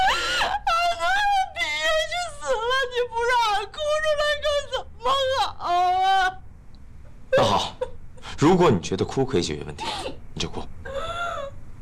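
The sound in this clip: A woman crying and wailing during a quarrel in a military setting: loud, long, wavering high-pitched wails in repeated bursts, then broken, sobbing vocal sounds.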